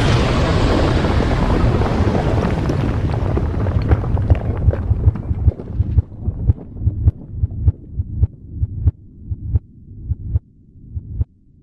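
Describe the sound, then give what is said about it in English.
Thermonuclear missiles launching: a loud, broad roaring rumble that gradually thins and fades, giving way to a steady train of rhythmic, throbbing thumps. “Launching all thermonuclear missiles. It's launching the missiles. It's launching the missiles.”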